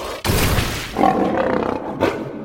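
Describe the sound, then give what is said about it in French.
A lion's loud, rough roar, a deep growling blast that holds for about two seconds, swelling partway through and surging again near the end, with no speech. “Et aussitôt, un lion apparut devant le chat.”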